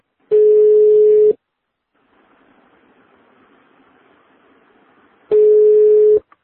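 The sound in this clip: Ringback tone on a telephone line as a call is put through: two long, steady buzzing tones about a second each, separated by a few seconds of faint line hiss.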